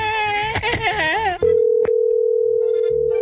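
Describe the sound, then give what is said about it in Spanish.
A voice speaks, then stops, and a steady, continuous telephone dial tone takes over while a call is being dialed, broken once by a brief click. “Pero vamos a marcar otra vez.”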